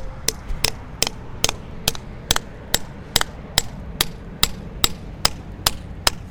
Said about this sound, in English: So just fit it into the hole and start giving it a whack. And you'll notice a distinct change in tone when it's seated.